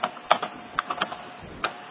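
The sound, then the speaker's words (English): Several scattered, crisp keystrokes on a computer keyboard as a command is typed out in full in a terminal, each a short sharp click with quiet gaps between, no voices. “I'll type it out in full to be clearer.”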